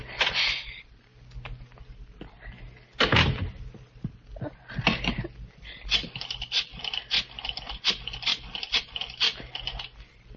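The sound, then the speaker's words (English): A key is fumbled in a door lock in a radio drama scene, with irregular bursts of metallic clicking, rattling and scraping, some louder jolts among many small clicks. “Key. Where's my key? Darn the lock.”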